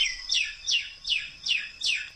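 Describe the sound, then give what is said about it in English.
Indian myna call, a bird introduced to Queensland: five evenly spaced, high-pitched, downward-sweeping chirps repeated in a steady rhythm, each bright and clear, with no talk. “It's the call of the Indian minor bird, introduced to Queensland 143 years ago”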